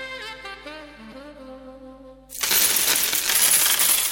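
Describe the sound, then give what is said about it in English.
Coins drop, money being banked, in a loud continuous cascade of metallic clinking and jingling that follows a soft melodic tune and lasts to the end. “That's the sound of Rebecca banking the money she saved with the Bosch cashback offer at Harvey Norman.”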